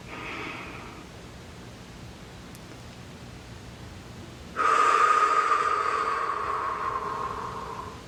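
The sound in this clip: A deep breath: faint, low background hiss for several seconds, then a loud airy rush of breath begins abruptly and continues steadily, easing slightly toward the end.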